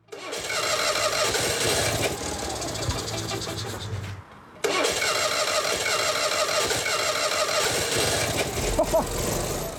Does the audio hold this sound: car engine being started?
yes